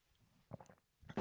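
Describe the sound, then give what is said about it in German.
A short sip of coffee: faint, brief slurping and mouth sounds come in two small clusters, the second ending in a louder burst of noise. “Kurzen Schluck Kaffee.”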